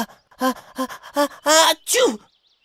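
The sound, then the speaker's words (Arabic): A person with a cold builds up to a sneeze with several short voiced gasps, each one louder, before a final longer burst with a falling pitch. “أوقف التصوير. هل ما يعجبك بابن فرحان أنه كان يعطس؟ إنه خطأ غير مقصود، أنا أعاني من بعض الزكام”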